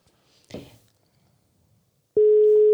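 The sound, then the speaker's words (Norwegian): A telephone line tone plays while an outgoing call is placed. After a brief rustle and a quiet pause, a single steady, mid-pitched electronic tone starts abruptly and holds loud to the end. “Men vi tenkte, skulle vi ringe opp en av de nye ervervelsene våre?”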